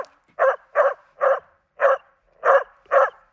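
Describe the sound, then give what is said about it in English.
Dog barking, six sharp, mid-pitched barks in a fairly even rhythm with a short gap between each, loud and alone with no voices. “This dog sounds like this.”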